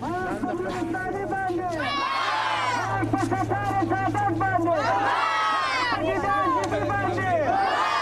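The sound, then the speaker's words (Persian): Dozens of unsuccessful provincial council candidates and their supporters march in protest in Kabul. Loud group chanting comes in repeated waves of shouted phrases, with crowd noise between them. “این صداها صدای اعتراض ده ها تن از نامزدهای راه نیافته در شوراهای ولایتی است”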